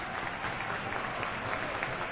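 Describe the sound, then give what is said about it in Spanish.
Stadium crowd applause at a football match, an ovation for a player leaving the pitch: a thick, continuous wash of clapping from many spectators that stays steady throughout. “Gran ovación para Javi Moreno, asistente del segundo.”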